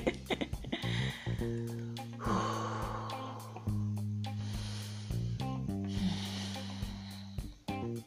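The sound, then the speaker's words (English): A few slow, deep breaths drawn in and pushed out, soft and airy, over a quiet, steady low music bed. “I want to take a deep breath, or let me take a deep breath now. 2 minutes deep breath.”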